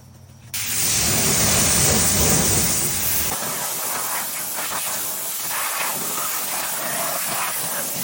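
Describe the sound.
Organic wheel and tire acid cleaner, diluted 4 to 1, is sprayed in a loud, steady hiss that starts abruptly and continues to the end, easing slightly partway through.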